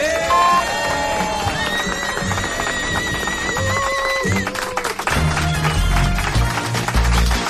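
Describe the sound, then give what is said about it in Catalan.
Cheers and applause from a studio audience blend with loud, bright music. Voices and shouts rise over the mix, which stays energetic and swells again toward the end. “Un aplaudiment.”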